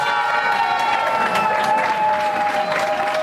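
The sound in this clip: Participants clap and cheer for the winning team at a competition prize announcement, a continuous, fairly loud burst of applause with raised voices woven through it.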